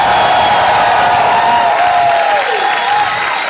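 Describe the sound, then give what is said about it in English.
Cheering and applause from a live theater audience at Largo in Los Angeles, a loud, dense roar of clapping and shouts with a sustained whoop that slides downward in pitch toward the end. “We are here tonight at Largo, our home in Los Angeles, with an amazing audience. You just heard them.”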